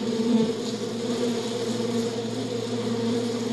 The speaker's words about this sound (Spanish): percibe la delicada forma en que trabajan las abejas. Zumban de colmena en colmena, algunas más grandes que otras.